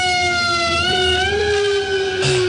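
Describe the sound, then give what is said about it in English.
Fire truck sirens wail on a city street in Manhattan, New York. The loud, continuous, high-pitched tone climbs slowly and fills the whole clip without a break, with road traffic blended underneath. “You can hear the sirens behind me. There's a fire truck.”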